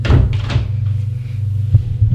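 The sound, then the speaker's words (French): A door opens with a few soft clunks and thumps over a steady low hum. “Et le domestique s'éloigne. La porte s'ouvre.”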